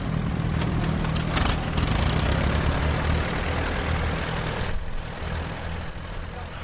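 A vintage tractor engine runs at a steady idle during a veteran-vehicle procession. The loud, low rumble under a broad, noisy wash holds continuously throughout, easing slightly toward the end.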